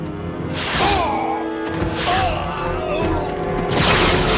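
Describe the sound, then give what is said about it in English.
Phaser rifle fire in a Star Trek audio drama: three bursts of sci-fi energy-weapon blasts with bending, whistling tones laid over a steady dense background bed. “Jadzia looks at Worf and nods. As the lead warrior approaches the fallen log, she opens fire.”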